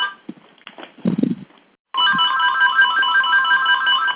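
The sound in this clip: An incoming-call ringtone on a phone starts after a couple of seconds of faint, scattered noise, then holds a steady, bright electronic melody at a constant loudness until the end.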